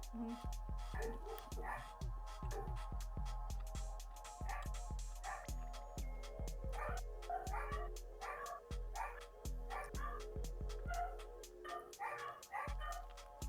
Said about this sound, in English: Your dogs are louder than any of our inside dogs.